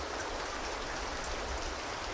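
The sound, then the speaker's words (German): Rain falls in a steady, dense hiss of countless drops, even in loudness throughout with no breaks and no voices. “Es regnet.”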